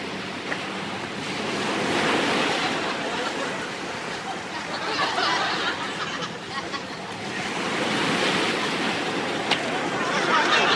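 Ocean waves surge and break where people are surfing, a loud, steady roar of surf that swells and eases in slow cycles, with wind noise blowing across it throughout.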